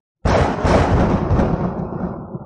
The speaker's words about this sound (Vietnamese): Một tràng tiếng sấm vang lên